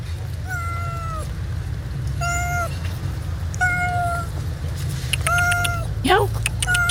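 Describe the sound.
A cat meows about five times over a low, steady background rumble. The mews are spaced a second or so apart, and the last is a sharper, rising cry.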